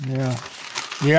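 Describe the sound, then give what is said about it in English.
Paper script being ripped up in a game: a brief, crinkly rustle of tearing paper in a short gap between two quick spoken words. “That's the sound of her ripping up her script.”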